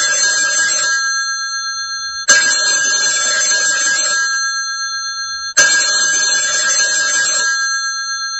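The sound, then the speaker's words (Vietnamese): An office telephone rings loudly and steadily, with a bright, buzzing bell-like tone. Three ring cycles start about every two to three seconds, each with a sharp onset and sustained ringing that barely pauses between them. “lúc ấy có một hồi chuông điện thoại reo bên văn phòng.”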